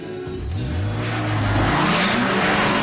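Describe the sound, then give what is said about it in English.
A red sports car speeds away, its engine revving loudly and climbing in pitch, with a brief high tyre squeal near the start; no voices. “Madison heads into a red sports car, and while Natalie paddles out further, she speeds off.”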